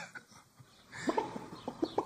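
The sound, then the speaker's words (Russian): A newly bought laying hen clucks faintly, giving several short, throaty clucks in the second half over a steady low background hum. “Я уж тут новую несушку-то купил.”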